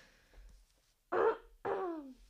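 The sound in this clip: Throat clearing from a clogged throat: two separate bursts, a short rasp followed by a longer, voiced clearing that drops in pitch. Both are faint and heard alone.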